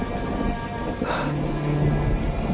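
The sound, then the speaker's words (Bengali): Rain and thunder from a thunderstorm: a continuous dense hiss of falling rain over a low rumbling undertone, holding at a fairly even level throughout. “বাইরে ঝড়, মেঘের গর্জন, বৃষ্টি।”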